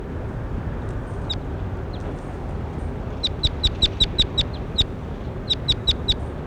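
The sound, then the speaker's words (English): Bird call: a series of short, high chirps repeated in quick bursts, many in a row with a brief pause between the two groups, over a constant low background hiss. “That was bird 21. Here he is again.”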